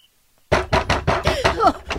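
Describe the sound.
Loud, heavy pounding on a door in a rapid, even run of thumps, with a shouting voice breaking in over the later blows.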